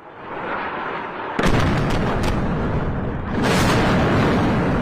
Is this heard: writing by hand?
no